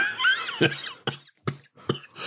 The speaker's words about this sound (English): You laughed me into a coughing fit there.